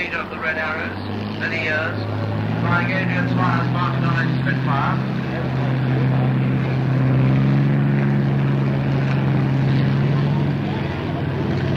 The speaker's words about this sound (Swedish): Försvinner Vulkan-bomban upp i luften och ljudet ersätts nu av ett mera riktigt ljud. Ett ljud ifrån en startande Spitfire.